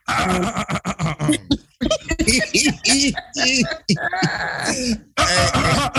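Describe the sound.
Throat clearing with a raspy cough-like quality, repeated in several short bursts between stretches of talk.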